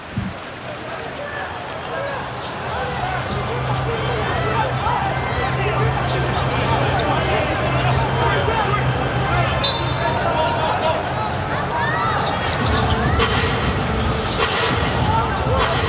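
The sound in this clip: A basketball bounces during a competitive game involving the Shanghai team, with repeated thuds on the court under continuous commentary and the hubbub of a crowd, which swells toward the end.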